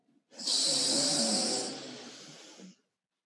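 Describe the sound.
A long, loud breath from people breathing together in unison, a single sustained rush of air that swells quickly, holds, then gradually fades over about two and a half seconds, with no talk.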